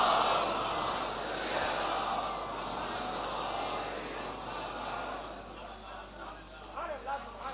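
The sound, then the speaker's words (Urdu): A crowd roars its response to the Nara-e-Haidari chant, a dense, sustained wall of massed voices that eases slightly over several seconds before a single speaking voice emerges near the end. “نعرہ حیدری, ممکن نہیں ہے. آواز بلند, نعرہ سلامات.”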